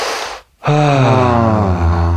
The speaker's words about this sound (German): Und dann atme einmal tief ein in den Körper.